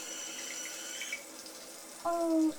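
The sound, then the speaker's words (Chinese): Water runs steadily while someone bathes, a soft continuous hiss with a faint whistling tone through it. “哎呀，媳妇儿在洗澡呢。”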